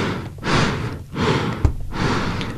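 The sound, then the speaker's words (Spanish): Airy breathing of a bandoneon's bellows: three long, whooshing swells that rise and fade in a steady in-and-out rhythm like a person's breath, with a soft knock between the second and third. “este instrumento, al estar conformado por un fuelle, permite de que uno pueda respirar junto con el bandoneón. Este clásico sonido que se da con el bandoneón,”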